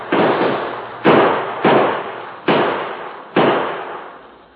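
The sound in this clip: Five gunshots ring out as lawmen fire on a fleeing outlaw in a Western showdown. Each is a loud, sharp crack with a long fading tail, unevenly spaced over a few seconds.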